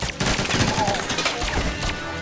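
Gunfire as guards open fire in a spy action scene: many rapid, overlapping shots and bursts, loud and dense throughout.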